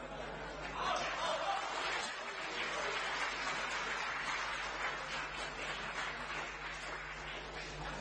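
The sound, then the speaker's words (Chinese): Audience applause after a traditional xiangsheng comic performance of the piece Yellow Crane Tower, a soft continuous wash of clapping through the whole clip, with some laughter and chatter mixed in. “谢谢您的掌声。”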